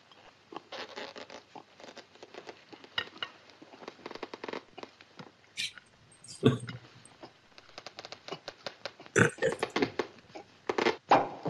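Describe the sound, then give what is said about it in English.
Squeaky scraping and rubbing of a long cork being worked out of a champagne bottle, a rapid series of short bursts broken by a couple of louder, sharper pops. “That's a long cork. Hey, you cheap crook, that bottle's empty. That's dry champagne.”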